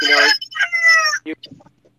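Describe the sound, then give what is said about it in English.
A rooster crows in one strained, harmonic-rich call, then a few short, choppy clucks from chickens follow, loud and with no other sound around them. “You got somebody's chicken and rooster going. He's chatting. He's got something to say. Wasn't my chicken.”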